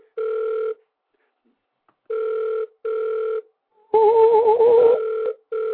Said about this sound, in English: I'm trying to get somebody on the phone line, but they're not answering their phone.